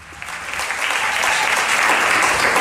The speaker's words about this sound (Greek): Με αποθεώνει το κοινό, όπως ακούτε.